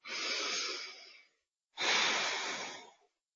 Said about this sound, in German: Ich atme wieder durch.